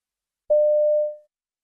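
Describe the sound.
A telephone tone heard while phoning an Indian restaurant to order a takeaway: one pure, steady, mid-pitched electronic beep lasting under a second, then silence.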